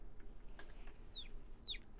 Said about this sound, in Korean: 마치 반려견처럼 반려병아리가 되었습니다.